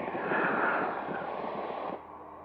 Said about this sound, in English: I'm going to do a run up. I'm going to test all the systems. I'm going to test the engine.